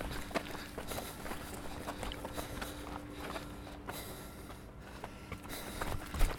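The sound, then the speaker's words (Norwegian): Footsteps of people running along a beach promenade, a quick, even patter of many light steps over a constant low hum, with no talk. “Nå har vi, nå har vi sprunget langs eh, strandpromenaden, og nå er vi endelig på offroad.”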